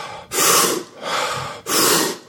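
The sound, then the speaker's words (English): A deep breath is drawn in and then let out, heard as three loud, airy rushes of breath in a row with short gaps between them and no talk. “So this is the breath in. It's... And then the let go sounds like this.”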